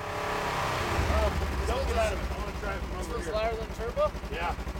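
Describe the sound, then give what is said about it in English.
An ATV engine runs during a noise level test by sheriff's deputies and a code enforcement officer, giving a steady, loud, low drone with revving swells. People talk over it throughout. “They're getting a noise reading. This vehicle is from Ultimate UTV Adventures.”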